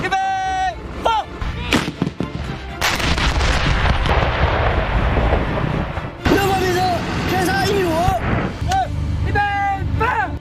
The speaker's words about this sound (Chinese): 预备放，预备放。 二炮命中，偏差1米。